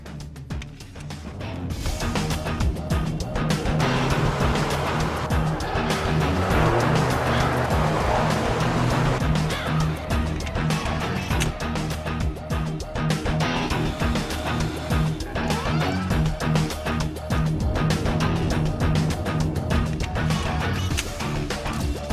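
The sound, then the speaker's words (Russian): A car speeding into a compound: a loud, dense, continuous roar of engine and road noise that holds steady throughout with no clear breaks. “Машина влетела на территорию.”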